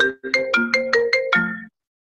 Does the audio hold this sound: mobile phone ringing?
yes